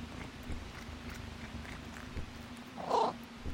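A ship's cat, kept hidden in a quiet room below deck, gives a single short meow near the end over a steady low engine-like hum.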